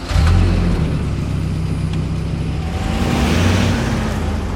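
A car engine revs as the vehicle drives off: a steady, loud, mid-pitched drone whose tone steps up partway through, over broad road noise, with no voices.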